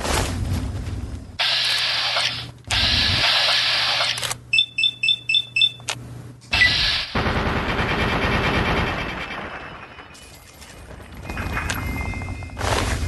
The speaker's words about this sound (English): That was Sydney's Ultra SMG under the influence of many, many, many chemicals.